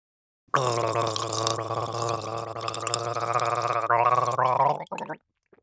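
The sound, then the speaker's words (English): Gurgling water sound effect: a continuous, loud bubbling gurgle lasting several seconds, breaking into a couple of short final gurgles before stopping. “Gurgling water.”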